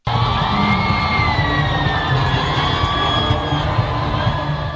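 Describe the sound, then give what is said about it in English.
Loud crowd cheering as hundreds of thousands welcome Pope Francis arriving at Kinshasa's Ndolo Airport, a steady unbroken roar of voices with whoops and shouts rising out of it from start to finish. “Hundreds of thousands of people welcomed Pope Francis as he arrived at Kinshasa's Ndolo Airport on Wednesday before the pontiff delivered a mass to the crowds. The crowd showed their joy while Pope Francis waved to them”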